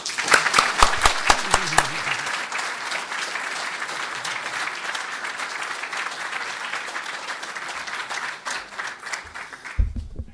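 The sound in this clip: An audience applauding to welcome a professor before a talk: loud, dense clapping with sharper claps at the start, holding steady for about ten seconds before ending with a low thump.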